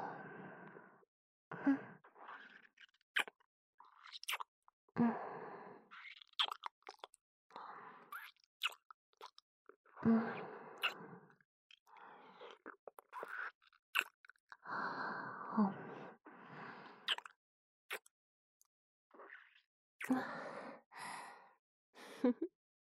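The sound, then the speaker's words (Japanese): Soft kissing sounds in an intimate role-play, with many wet lip smacks and small clicks mixed with breathy sighs and exhales, recurring in irregular clusters across the whole stretch. “私のファーストキス、受け取りなさい。”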